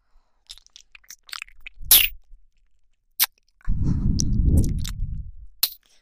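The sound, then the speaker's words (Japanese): Chewing and eating a hamburger steak: scattered soft mouth clicks and smacks with a sharper burst early on, then a longer, muffled low stretch of chewing. No talk. “ハンバーグ食べてください。私はあなたの食べっぷりをこの特等席で見せさせていただきます。”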